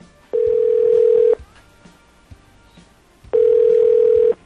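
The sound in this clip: Ringback tone of an outgoing telephone call: two long, steady buzzing tones, each lasting about a second, separated by a pause of roughly two seconds, with faint background noise between them.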